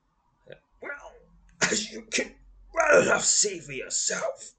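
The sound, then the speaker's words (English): A man breaks into a violent coughing fit that leaves him breathless: harsh, rasping coughs and strained gasps come in a few loud clusters, the last stretch long and ragged. A voice performs the coughing. “says Beldrin, who breaks into a violent fit of coughing and that momentarily leaves him breathless”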